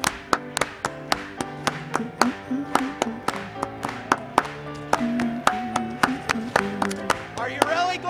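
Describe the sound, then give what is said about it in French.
Rhythmic hand clapping by a church audience, many crisp claps on a steady beat that continue throughout under a sung hymn. “Oh, frappe les mains pour lui aujourd'hui.”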